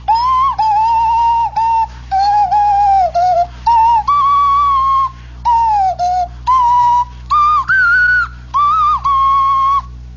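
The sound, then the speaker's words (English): A nose flute plays a series of breathy whistled notes separated by short gaps, each note wavering and sliding up or down in pitch, clear and fairly loud. “And then there's the sound of the nose flute. This was also a common sound heard in the great Indiana plains. Listen to this one now.”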